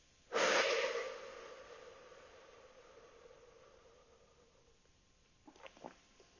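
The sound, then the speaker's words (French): Slow breathing in through the nose and out through the mouth during a calm breathing exercise. One loud, airy breath fades gradually over several seconds, followed by a few softer, shorter breaths. “J'inspire tranquillement par le nez et j'expire lentement par la bouche.”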